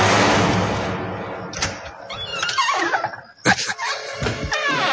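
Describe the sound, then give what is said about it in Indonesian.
A door slowly swings open by itself with a drawn-out, wavering creak, accompanied by a few short knocks and bumps. “kulihat pintu kini terbuka. Terbuka dengan sendirinya secara perlahan-lahan.”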